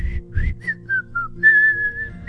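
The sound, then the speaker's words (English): A man laying carpet whistles a song tune, a clear melodic run of short gliding notes that ends on a longer held note, carrying alone without talk. “you were whistling my song”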